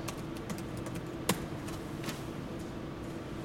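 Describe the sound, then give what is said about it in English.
Computer keyboard typing as a plot command is entered into a graphing program: a few light key clicks and one sharper tap, fairly faint over a steady background hum. “So if I type plot sine of x,”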